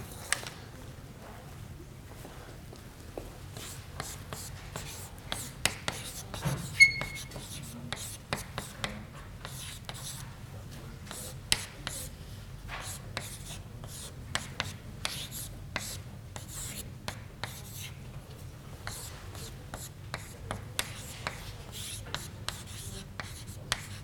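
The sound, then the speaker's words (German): Handwriting during a lecture, with many quick scratchy pen or chalk strokes and small taps in an uneven rhythm, fairly quiet against a low steady hum. “Das schreiben wir uns vielleicht mal kurz auf.”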